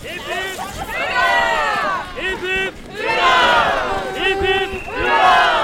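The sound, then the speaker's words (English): Thousands of happy Norwegians in a long parade in Longyearbyen, Svalbard, on May 17th: a loud crowd cheers and shouts in rising, overlapping waves of voices, with a continuous roar of babble beneath. “I'm walking in a long parade with a couple of thousand extremely happy Norwegians.”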